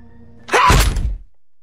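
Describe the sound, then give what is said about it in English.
A single heavy, dull thud of a gun butt striking a person, a short broad whack that fades quickly into quiet. “hits her with the butt of a gun”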